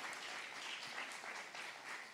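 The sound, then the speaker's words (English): A church audience at the Mill Church applauds visiting missionaries from Shirley's House of Hope in Marshfield: steady, dense clapping that holds an even level for about two seconds, with no voices over it. “Will you give Shirley's House of Hope, they're going to introduce themselves, a kind welcome to the Mill Church.”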